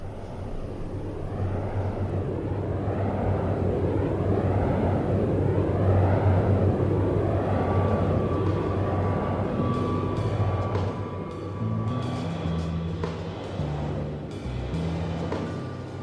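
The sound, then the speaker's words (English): Wind turbine blades spinning through the air, producing a steady run of rhythmic whooshing swells, each rising and falling about once a second over a low continuous drone; near the end the swishing eases and low, uneven tones take over. “What you hear behind me are the blades of a wind turbine spinning through the air.”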